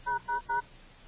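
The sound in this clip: Three short, evenly spaced touch-tone beeps from a telephone keypad dialing a self-service teleconference line, steady and clear, followed by quiet.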